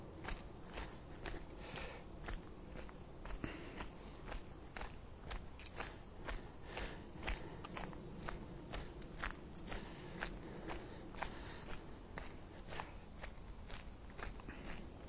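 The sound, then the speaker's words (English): Footsteps walk back down a hill between uphill running drills, a steady, even rhythm of many soft, faint steps. “Hold it there. I'm just going to walk back down this time.”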